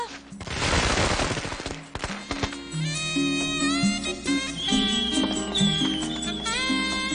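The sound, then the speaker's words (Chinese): Fireworks exploding in rapid, dense crackling bursts, heaviest in the first two seconds, then continuing under loud music with sustained tones. “吓，对住烟花许愿。”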